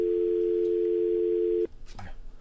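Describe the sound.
A steady telephone dial tone after a phone call disconnects, holding one unchanging pitch for about a second and a half, then cutting off abruptly, followed by a short burst of other noise.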